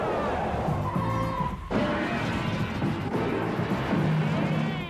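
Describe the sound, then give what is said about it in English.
A squad car engine revs and takes off at high speed on gravel, with a growling rumble and tonal engine whine, a brief break, then a renewed roar of the motor. “You rev the engine! Wake up the stinking neighbors! Yeah! Ah, ah, ah. And then you take off at high speed! Splattering gravel and run down all their mailboxes!”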